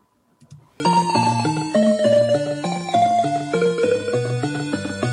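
Homemade adventure video game music plays from an MSX2+ sound chip fitted to a CoCo computer. Bright chiptune melody notes step over a bouncing bass line, starting abruptly after a brief silence and staying steady and fairly loud.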